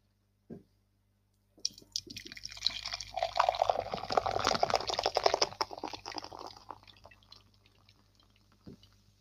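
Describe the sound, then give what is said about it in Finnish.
Nokian Panimo beer pours straight into a pint glass rather than down its side: a faint click, then about six seconds of steady fizzing and splashing that slowly fades, with another soft click at the end. “Mua vähän kyllä kauhistuttaa, kun sä et kaada sen tuopin reunoja pitkin.”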